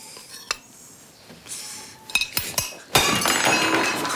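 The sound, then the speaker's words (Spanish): A plate thrown through the air during a struggle on a bed smashes: a few sharp clinks and knocks, then a loud, sudden burst of shattering crockery that rattles on to the end. “pero cuando intenta darle una cucharada, lanza el plato por los aires.”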